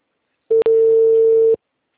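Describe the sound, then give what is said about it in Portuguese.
Telephone line tone heard when dialing a number served by an automatic dialer: one steady, mid-pitched tone lasting about a second, with a brief break just after it starts, heard alone with no talk. “Eu tentei ligar nesse número, não foi. É porque é uma discadora automática.”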